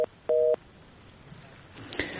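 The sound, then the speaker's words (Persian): A telephone busy tone sounds after a caller's line drops on a call-in: short, clipped dual-pitch beeps, the second one fuller, then faint line noise with a few soft clicks. “متاسفانه شنونده دیگه ما هم تماسشان قطع شد”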